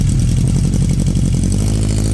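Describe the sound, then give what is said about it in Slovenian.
A motorcycle engine revs with a loud, steady, low rumble that holds at an even level for the whole stretch, with no voices. “Motor. Motor. Tudi uživam na motoru.”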